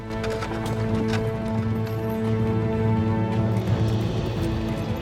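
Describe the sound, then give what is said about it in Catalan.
Galloping hoofbeats of a horse carrying a rider away from a convent, a loud, steady, continuous clatter that runs through the whole clip. “En Bernat s'allunya del convent al galop amb l'Arnau a la falda.”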